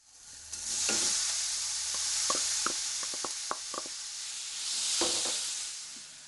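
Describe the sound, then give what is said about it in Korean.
Ground meat with chopped ginger stir-fried in a warm pot and stirred with a wooden spatula, a steady soft sizzle with irregular light scraping knocks of the spatula, faint and without voices. “알갱이가 작은 소보로를 만들기 위해 나무 주걱으로 잘 저어가면서 볶습니다.”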